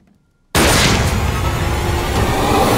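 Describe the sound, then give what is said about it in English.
A gunshot in a video game bursts out suddenly after near silence, a loud, harsh blast that runs straight into a sustained roaring noise at high level until the end. “Oh, Jesus. You shot the maid.”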